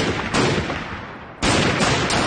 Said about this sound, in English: Oscar shoots at Leo's feet.